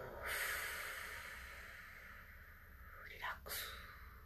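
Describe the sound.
A slow exhaling breath during a voice warm-up, heard as a long, steady, breathy hiss lasting nearly three seconds, followed by a couple of short breath sounds.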